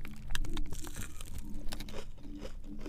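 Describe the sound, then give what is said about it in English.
Someone bites into and chews a crunchy hash brown, giving a run of crisp, irregular crunches and chewing noises, fairly quiet throughout. “You have to eat the hash brown before the sandwich. It's mandatory.”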